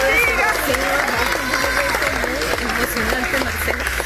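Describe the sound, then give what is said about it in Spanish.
Applause breaks out as rescuers bring a young man out alive after 30 hours in San Bernardino, in the Caracas metropolitan area. Clapping blends with loud, excited shouting voices for the whole stretch. “Los aplausos en San Bernardino, en el área metropolitana de Caracas, donde 30 horas después rescataban con vida a un joven.”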